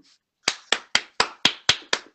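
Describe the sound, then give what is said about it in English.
Hand claps greet a guest on a talk show. There are eight sharp, evenly spaced claps in a brisk, steady rhythm, each crisp and clear against silence. “let's give him. I mean, let's give him a round of round of applause, you know, round of applause.”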